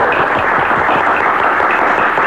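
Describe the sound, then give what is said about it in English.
Applause from a crowd of pilgrims, a loud, dense patter of many hands clapping at once, steady from start to finish with no voices. “The pilgrims applauded and the squirrels shook their paws.”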